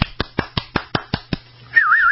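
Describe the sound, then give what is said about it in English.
Employees of a General Motors metal stamping plant in Parma are given a hand: eight sharp, evenly spaced claps ring out, followed by a loud, warbling whistle that wavers up and down. “Let's give them a hand.”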